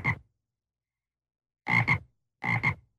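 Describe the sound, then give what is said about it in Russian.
Toads croak around a hillside: three short, low, rasping bursts separated by silence, the last two each splitting into a quick double croak. “Со всех сторон холм окружают туалетные жабы. Они скачут наверх.”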